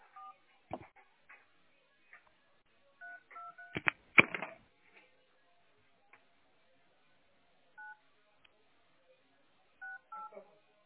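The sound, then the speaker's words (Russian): A telephone number is dialed on a touch-tone keypad: short, faint beeps come at irregular intervals, with a brief handling clatter midway. “Да я уже набираю ему.”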